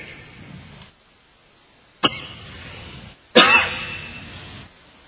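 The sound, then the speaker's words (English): Coughing from a preacher during a sermon: two sharp coughs separated by a pause, the second louder and trailing off longer, with faint background hiss between them. “I've been having this coughing for a while.”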